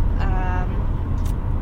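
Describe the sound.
A car drives on the road during a vacation road trip, with a steady, heavy low rumble of engine and tires throughout and a voice briefly heard over it.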